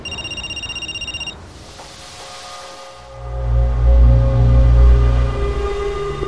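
A telephone rings with a rapid, bright electronic trill that pulses quickly for about a second and then cuts off. A low rumbling noise then builds and stays loud to the end.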